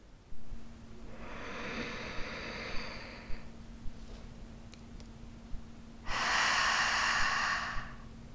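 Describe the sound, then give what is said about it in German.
A person takes a slow deep breath: a long, airy inhale lasting a few seconds, a quiet pause, then a steady, audible exhale. No speech is heard. “Lasst uns wie immer erstmal einen tiefen Atemzug zusammennehmen.”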